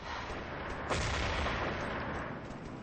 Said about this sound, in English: He's got an MP5K out. He's firing in the blind.